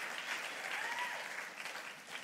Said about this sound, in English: Verse 6, and this is your moment to cheer. I need you to do it like you did it for Pastor Juan.